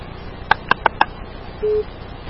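Telephone line sounds as a caller hangs up and the call is cut off: four quick, clear electronic beeps in a row, then a pause and one short steady tone over faint background hiss.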